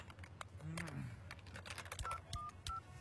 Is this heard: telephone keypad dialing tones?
yes